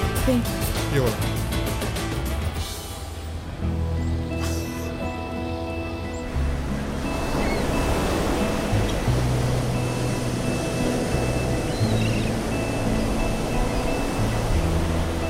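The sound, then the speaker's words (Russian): Ocean waves on the shore: a broad, continuous rush of surf that grows fuller and steadier in the second half. “Джек стоит у океана.”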